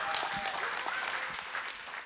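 A ripple of applause fills a room as a gathering honours a couple, many hands clapping at once in a dense, steady patter that holds for about two seconds before thinning slightly at the end.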